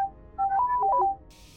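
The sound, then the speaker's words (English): A droid in a video game beeps in a quick burst of several electronic chirping tones that step between two or three pitches. The burst is clear and alone, then gives way to a faint hiss. “we got a beep boop droid coming at us. Hello, beep boop droid. What's your deal?”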